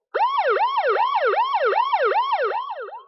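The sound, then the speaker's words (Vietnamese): Piercing alarm siren blaring through the floors of a survival base, a rapid wail sweeping up and down over and over, loud and steady before easing slightly at the end. “Còi báo động chói tai trong nháy mắt vang lên trong các tầng lầu ở căn cứ sinh tồn.”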